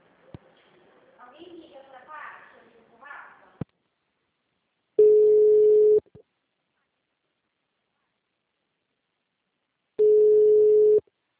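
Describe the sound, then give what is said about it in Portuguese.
Ringback tone of an outgoing telephone call: after a few seconds of faint talk, two steady, low one-second tones sound alone, spaced about five seconds apart with silence between them. “vou ligar para ele”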